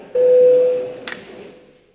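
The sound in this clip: A single steady electronic tone marks the switch to electronic voting mode in the Latvian parliament. It sounds at a mid pitch for under a second, then fades into low background hum.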